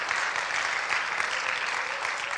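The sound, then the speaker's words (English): Sustained applause from a church audience giving a hand clap of praise to Jesus Christ, a thick, even roar of many hands clapping at steady volume throughout. “Why don't we give a hand clap of praise to Jesus Christ?”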